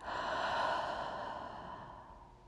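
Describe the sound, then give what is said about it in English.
A slow, deep breath in a guided breathing meditation, soft and airy, swelling gently and then fading over a couple of seconds with nothing else heard. “Connecting to your beautiful breath, slow and deep breath in and out.”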